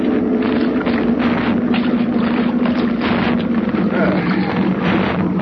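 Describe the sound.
A boat engine idling as the boat comes in toward an island. It makes a steady, low, rumbling drone mixed with a rough, wind-like hiss, and the level stays loud and constant from start to finish.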